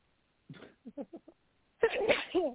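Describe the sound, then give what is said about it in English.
A person sneezes. A few short voiced catches of breath build up, then a brief pause, then a loud, drawn-out sneeze burst. “Excuse me. Is that a sneeze? Bless you.”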